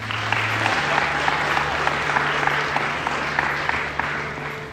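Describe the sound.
Audience applause welcomes a speaker after a student's introduction, a steady dense patter of many hands clapping continuously throughout, with a low steady hum beneath.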